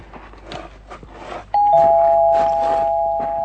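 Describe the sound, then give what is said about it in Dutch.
A doorbell rings at a house's front door, two sustained electronic chime tones sounding loudly after quieter shuffling and rustling. “Nog een keer bellen.”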